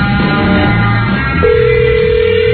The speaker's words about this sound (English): Dialing her up right now.